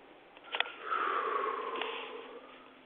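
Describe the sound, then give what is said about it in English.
A deep breath taken during a guided breathing exercise, starting with a short, sharp sniff and then a long, airy inhale that swells and slowly fades over more than a second. “And breathe in. And out. And breathe in.”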